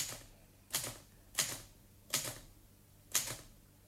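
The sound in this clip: Four sharp, clacking key strikes on a typewriter come at uneven intervals, each a crisp metallic snap that quickly decays, fairly faint against a quiet background.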